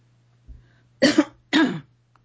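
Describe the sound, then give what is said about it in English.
A speaker has something in their throat and gives a short, faint throat clearing, then two loud, harsh coughs in quick succession. A low steady hum runs underneath. “I'm sorry, I'm having a little something in my throat.”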